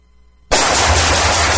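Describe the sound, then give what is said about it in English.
Gunfire breaks out suddenly after near-silence: a loud, harsh blast of shooting that continues without a break until the end. “Nice shooting.”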